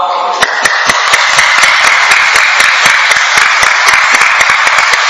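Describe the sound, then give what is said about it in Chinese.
Hand clapping done as a form of exercise: many sharp, evenly spaced claps at a brisk, steady rhythm, standing out loudly over a constant background. “就拍手掌咧，足以有个运动嘅量喺度”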